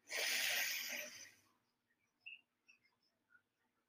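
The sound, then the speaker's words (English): A deep breath drawn in during a guided breathing exercise, a single loud, airy rush lasting about a second and a half that fades out, followed by a few faint soft clicks. “Maybe take a deep breath if that's your jam. You know, let's do it together maybe. Okay, ready? Let's go in.”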